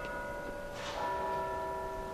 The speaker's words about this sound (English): And that bell is an acknowledgement.